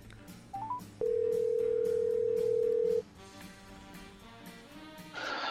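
A phone call rings out while waiting for the other person to answer: a few short beeps, then one steady, even tone lasting about two seconds before it cuts off, over a murky background.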